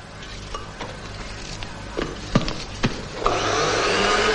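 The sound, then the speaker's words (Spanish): Kitchen work as a mother peels carrots and her daughter mixes liquids with cocaine: a few sharp clicks and scrapes, then a steady, fairly loud rushing hiss of mixing fills the final second, with no talk. “La madre pela zanahorias mientras su hija mezcla diferentes líquidos con la cocaína.”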